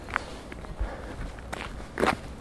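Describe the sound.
A few soft, uneven footsteps from someone walking outdoors, faint thuds spaced apart over a low background hiss.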